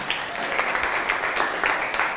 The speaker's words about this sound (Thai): ปรบมือให้กับเพื่อนหน่อย